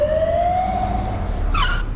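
An ambulance siren wails as one loud tone that climbs slowly in pitch over a low rumble of traffic, joined near the end by a brief, higher burst.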